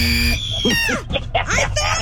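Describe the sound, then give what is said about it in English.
A person screaming in a high-pitched shriek during a two-player trivia quiz game, then breaking into excited vocal outbursts; loud and close, with the voice leaping and sliding in pitch. “Win or lose, just to hear you scream is a win for me.”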